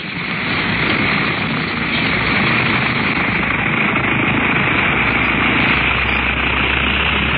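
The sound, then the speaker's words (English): An aircraft engine roars through takeoff, a loud, unbroken droning hum holding steady from start to finish with no voices over it. “Everything is ready for the takeoff, please. Safety belts fastened and off. Then, here we go.”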